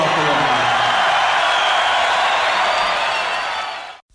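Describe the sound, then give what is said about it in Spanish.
An audience cheering and applauding, a loud, steady wash of clapping and crowd noise that holds evenly, then tapers and drops away abruptly at the end. “Eso es el público magnífico”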